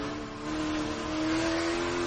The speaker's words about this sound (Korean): 드라마 속 주인공답게 멋진 바이크를 타고 다니면서